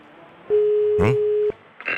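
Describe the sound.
A telephone ringing tone plays while calling someone: a single steady mid-pitched beep lasting about a second, with a short vocal sound over its middle and another brief noise just after.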